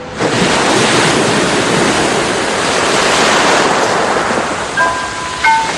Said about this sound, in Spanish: El mar, dentro de la caracola. Es hermoso, ¿verdad?